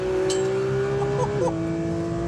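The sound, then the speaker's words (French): Sports car engine revving high toward 9000 rpm with wider tires than a GT4 RS, a loud tonal whine that dips sharply as it shifts into fourth gear, then climbs again steadily, without speech. “Allez, 9000 tours, je passe la 4.”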